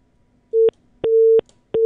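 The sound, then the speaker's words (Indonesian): A telephone busy tone sounds after a phone line is cut off. Three steady mid-pitched beeps are separated by short silences: a short first beep, a longer second one, and a third that is cut off at the end. “Ya, nampaknya terputus dua-duanya.”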